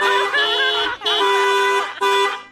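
A car horn honks in three loud, sustained blasts with brief gaps between them. The tone is bright and a little wavering, and the last blast is the shortest.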